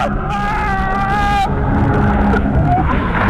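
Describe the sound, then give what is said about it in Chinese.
Jet ski engine whine during a sharp high-speed turn at sea, loud and steady with a strong tonal drone that breaks into a rougher rushing roar about halfway through. “摩托艇一个急转弯，由于速度太快，离心力很大，记者瞬间失去平衡，被甩入水中。”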